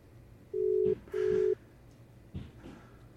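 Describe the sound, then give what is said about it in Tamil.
A busy tone sounds on a telephone call that fails to connect: two short, steady, evenly pitched beeps in a row over a faint line hiss. “அவருக்கு அழைத்து பார்க்கிறது, அவருக்கு இணைப்பு கிடைக்கவில்லை”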